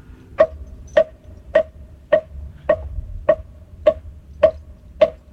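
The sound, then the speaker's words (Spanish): A tortuga, a turtle-shell percussion instrument, is struck nine times at an even, unhurried pace, each hit a sharp, hollow, woody click that stands alone against a quiet background. “Así suena mi tortuga.”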